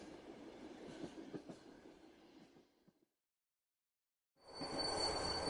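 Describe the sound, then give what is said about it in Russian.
A train wagon at a station clanks and jolts on the rails, a quiet rumbling with a few sharp knocks that cuts to silence, then a louder, steady grinding noise surges back in. “Вагон лязгнул, дернулся, и под полом что-то заскрежетало.”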